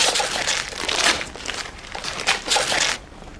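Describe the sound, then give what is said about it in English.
Wrapping paper crinkles and tears as a present is ripped open: continuous loud rustling with sharper rips, easing off near the end. “Rip it! What is it? I'm going to... All right, I'll rip it.”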